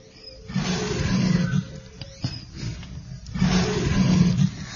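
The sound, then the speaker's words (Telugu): A lion roars in a forest, giving two long, deep, rumbling roars separated by a pause. The roars are loud and stand alone. “అకస్మాత్తుగా అతనికి ఒక సింహ గర్జన వినిపించింది.”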